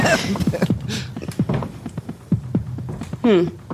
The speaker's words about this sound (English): Wherever you are now walking, it sounds like walking. Wherever that is. Right above me.